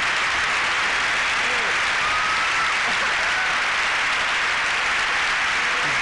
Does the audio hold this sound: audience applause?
yes